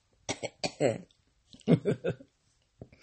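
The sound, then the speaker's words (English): Harsh coughing from a person: two clusters of raspy bursts separated by a short pause, then a brief, softer cough at the end. “once I cough this out”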